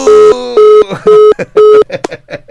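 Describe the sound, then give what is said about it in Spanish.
Telephone call being placed: four evenly spaced steady electronic tones, each about a quarter second long, followed by a brief voice speaking. “Ahora que nos reciba la llamada, ¿verdad?”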